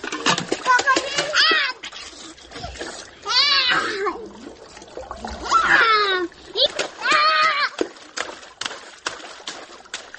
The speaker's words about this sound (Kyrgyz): Экөөн дагарага салып жуунтат, которуп жаңы кийим кийгизет.